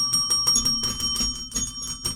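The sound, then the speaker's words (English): A toy xylophone plays a rapid, irregular run of many struck notes, bright and ringing like small bells, fairly loud and with no voices. “Sharon K said it didn't have batteries, but it was a xylophone. A xylophone. Sounds a little like this.”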